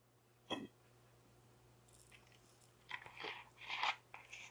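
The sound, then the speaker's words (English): Water being gulped: one sharp wet swallow, then after a pause a cluster of several louder gulping and throat sounds close together, with no talk. “aside from me gulping water and making y'all feel grossed out”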